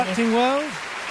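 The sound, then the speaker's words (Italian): Continuing applause for a youth orchestra after a concert performance, a steady crackling patter with a brief gliding vocal sound over it at the start. “Applausi continuano.”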